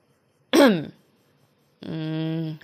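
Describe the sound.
A man clears his throat in one short, gruff burst. After a pause comes a longer, steady voiced sound.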